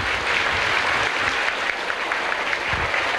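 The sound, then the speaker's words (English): Applause from an audience at an event in Bangkok, Thailand: dense, steady clapping that fills the whole clip at an even loudness, with no clear voices above it. “ขอคนไทยช่วยตบมือหน่อยครับ”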